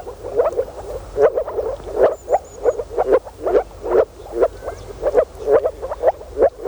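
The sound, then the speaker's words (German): Moor frogs call in a spawning chorus. Many low, muffled croaks repeat in quick clusters with short gaps between them, in a steady rhythm throughout. “Das hier sind Moorfrösche. Im Frühjahr versammeln sie sich in Gräben und Tümpeln, um ihren Laich im Wasser abzulegen.”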